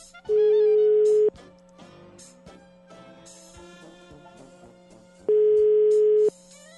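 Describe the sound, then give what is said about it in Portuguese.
A telephone ringback tone sounds while a call is placed: two long, steady mid-pitched beeps, each about a second, separated by several seconds of quiet. Faint music plays underneath. “vamos tentar ligar. Eu acho que ela não vai atender, mas por, me, por questões assim protocolares, a gente tenta ligar para ela.”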